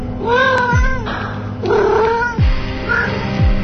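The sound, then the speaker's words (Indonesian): A cat meows a few times in a boarding-house room, drawn-out, wavering yowls with a caterwauling edge, rising over a steady background hum. “ada satu kucing yang masuk ke kamarku dan mengambil ayam goreng yang tinggal satu-satunya”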